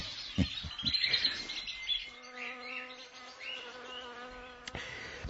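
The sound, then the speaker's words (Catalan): Insects buzz and chirp outdoors. A steady droning hum sets in after the first couple of seconds, with brief higher chirps above it and a few low thumps near the start. “Els insectes no són tan perceptibles, malgrat acompanyar els seus cants i els seus afanys amb instruments de reforç adequat.”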